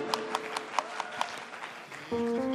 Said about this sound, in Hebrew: מחיאות כפיים